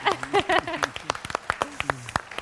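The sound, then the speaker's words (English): Audience applause for a guest speaker, a burst of scattered claps after a voice at the start, thinning into a few separate claps toward the end. “Give it up for Kelsey.”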